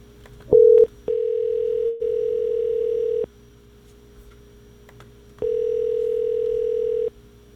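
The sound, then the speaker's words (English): Steady telephone dial tone on a line to a Las Vegas hotel reservation number: a short burst, then two long, even, mid-pitched stretches separated by a few seconds of quiet. “Guess I'll dial from a different window.”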